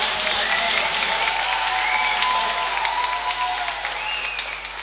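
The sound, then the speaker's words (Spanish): Audience applause after thanks from the stage: a dense, steady wash of clapping with a few whistles, tapering a little at the close. “Muchísimas gracias. Dale. Un aplauso.”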